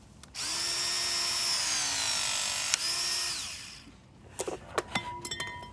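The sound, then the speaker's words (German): A power tool whirs against a high-security bicycle lock, a steady high-pitched whine holding for several seconds before winding down, followed by a few light metallic clinks and taps. “Mich würde tatsächlich das Werkzeug mal interessieren, was du da mitgebracht hast. Darf ich das mal ausprobieren?”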